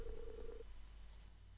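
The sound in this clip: A telephone call rings out with a single steady low tone lasting about half a second, then the line falls quiet over a faint low hum.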